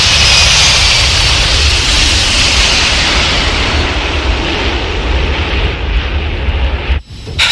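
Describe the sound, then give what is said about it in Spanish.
Airplane moving on a runway: a loud, steady jet roar with a hissing, rushing edge that holds throughout and cuts off abruptly just before the end. “El avión se mueve.”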